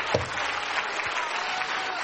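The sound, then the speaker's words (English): An audience clapping their hands in praise during a worship service, a dense, steady wash of applause that holds at an even level for the whole stretch with no voices standing out. “Let's clap our hands unto him and bless his name.”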